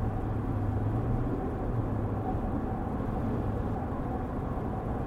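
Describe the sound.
A car driving gives a steady, low rumble of engine and road noise with a faint hum. It stays constant and fairly quiet throughout, with no one talking.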